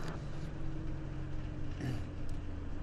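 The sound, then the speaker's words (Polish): A car drives along a city street in Kalisz, Poland, heard as a faint, steady low engine drone with a constant hum and a few soft, brief noises over it, and no talk. “Jedziemy ulicą Sukienniczą.”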